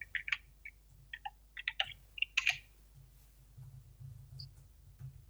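Typing a search for Tupac movies on a computer keyboard: light, irregular key clicks in quick clusters early on, fading to sparse taps and a low hum.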